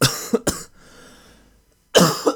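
Harsh coughing from a person who is unwell: two quick coughs, a pause with faint breath noise, then another pair of coughs, fairly loud and with no talk.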